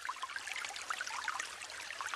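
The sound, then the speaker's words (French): Water rushing and splashing as bare hands strike and stroke it in Cameroonian water drumming, a traditional form of water percussion. The sound is a steady, dense, bright wash of splashes, with no separate strikes standing out. “une pratique traditionnelle du Cameroun qui consiste à frapper et caresser l'eau à main nue pour en faire sortir des sons. L'eau devient alors elle-même l'instrument”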